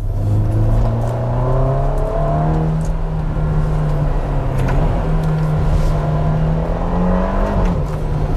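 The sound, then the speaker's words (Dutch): Ferrari Roma sports car engine while driving on a hilly road in Piedmont, Italy, a loud, continuous engine drone with a steady tone whose pitch shifts gently and rises slightly near the end. “Jij zit in een Ferrari in Italië ook nog op een mooie weg.”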